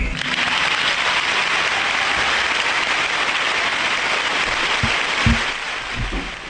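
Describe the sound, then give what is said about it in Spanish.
An audience applauds an interviewee. A thick, even rush of clapping holds strongly for several seconds, then thins toward the end with a few low thumps. “vamos a inaugurar una nueva sección del programa que es aplaudir al entrevistado.”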